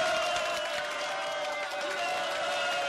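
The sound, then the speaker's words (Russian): Spectators at a chess tournament applauding enthusiastically, a steady wash of clapping and crowd noise that holds at an even level throughout. “Зрители восторженно встают и аплодируют Остапу.”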